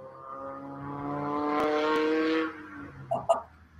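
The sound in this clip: Drift cars revving outside at Greenwood Drift: a sustained, droning engine note swells and holds, then drops away about halfway through, followed by a couple of brief, sharp sounds. The sound is fairly faint.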